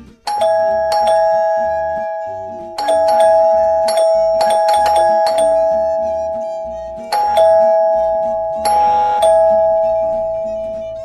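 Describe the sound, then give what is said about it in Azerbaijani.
A doorbell rings violently and over and over, in rapid clusters of sharp, bright electric tones separated by short gaps, loud and insistent throughout. “Zəng şiddətlə həm də dalbadal çalınır.”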